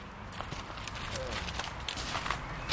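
Footsteps of a person walking forward make a steady series of soft, faint steps over a low, continuous background noise.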